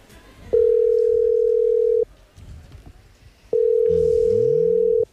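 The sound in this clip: Telephone ringback tone while a call is placed: two long, steady electronic tones, each about one and a half seconds, separated by a pause of similar length. Faint background noise and a brief chirping sound accompany the second tone.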